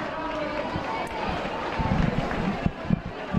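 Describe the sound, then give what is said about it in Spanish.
Footsteps of people running down a street after a bullfight procession for Morante de la Puebla, with quick thudding steps that grow heavier toward the end over a crowd murmur and voices. “ya os digo que no soy el único que está corriendo calle abajo para seguirle. Ahí lo escucháis.”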